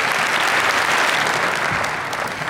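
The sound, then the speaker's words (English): An audience applauds to welcome a speaker to the morning service, a dense, steady wash of clapping that eases slightly toward the end. “And so would you please give Dr. Mark Ward a warm welcome as he comes to speak this morning.”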